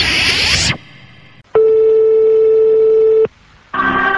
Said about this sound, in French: Ah merde, répondeur.